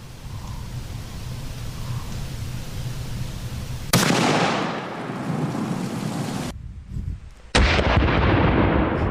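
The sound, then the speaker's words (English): A gunshot fired into a ballistic dummy neck, aimed at a downward 45-degree angle. A steady hiss gives way to a sudden loud blast and a long roaring wash of noise, which breaks off briefly and then surges back. “And I'm going to aim towards the front left of our ballistic dummy neck, 45 degree angle, and we are shooting slightly downward as well.”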